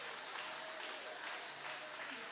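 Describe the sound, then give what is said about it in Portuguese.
Congregation clapping hands during a church worship service: a dense, steady patter of many palms, fairly faint, with voices blending in underneath. “Levanta a mão, bate as palmas e dá glória.”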